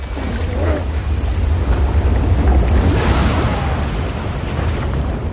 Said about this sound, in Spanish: El río forma grandes escalones que acaban en una gran cascada.